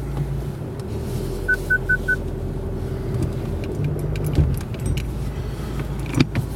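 A car pulls out of a driveway with a low, steady engine rumble from inside. Early on, a quick series of four short high beeps sounds, and scattered light clicks and rattles follow. No one speaks.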